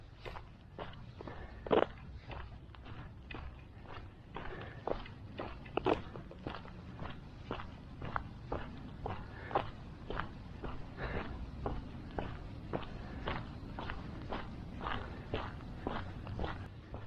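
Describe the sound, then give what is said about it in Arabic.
Many footsteps on a morning walk fall in a steady, even rhythm, each step a crisp, short crunch that repeats at a regular pace for the whole stretch. “هذا المشي ديال الصباح لا يعوض”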